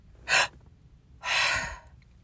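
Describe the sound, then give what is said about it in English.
Two breathy rushes from a meditation breathing exercise: a short quick breath, then a longer, fuller breath pushed all the way out, both loud and airy against near silence. “the last breath is breathing everything out and kind of concaving in”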